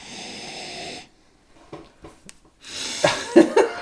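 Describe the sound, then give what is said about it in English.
People sniffing winter beers: a long hissing sniff, a few faint short snuffles, then a rougher run of louder snorting sniffs with several sharp peaks. “The real sound of us smelling.”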